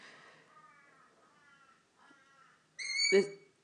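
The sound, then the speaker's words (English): A crow cawing outside: one loud, harsh, nasal call near the end, after a stretch of faint, quiet sound. “First the crow outside, right?”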